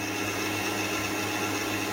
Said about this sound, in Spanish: lo dejaré batir un minutito y empezamos a poner la harina